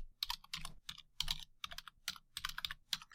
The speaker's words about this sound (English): I'll type that right in here.